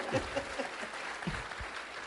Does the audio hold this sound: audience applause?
yes